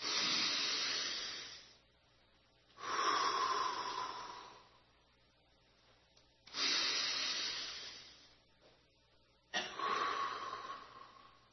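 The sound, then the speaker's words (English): Slow, deep breaths drawn in through the nose and let out through the mouth: four long, airy breath sounds separated by quiet pauses, soft and unhurried, with no talking. “Breathe some of God's good air with me, if you would please. You know, those cleansing breaths, in through the nose, out through the mouth.”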